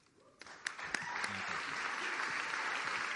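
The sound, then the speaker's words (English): Audience applause at a contestant event for a student education fundraiser begins with a few scattered claps, then quickly swells into dense, steady clapping that holds at a moderate level. “And keep the applause going for that whole group, contestants 21 through 30.”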